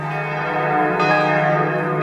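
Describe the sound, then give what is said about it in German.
Mighty church bells calling to prayer in northwest Berlin ring in a dense, continuous peal, their overlapping tones loud and sustained throughout, with no talking. “Seit 60 Jahren rufen die mächtigen Glocken von Maria Regina Martyrum zum Gebet, hier im Nordwesten Berlins, unweit der NS-Hinrichtungsstätte Plötzensee.”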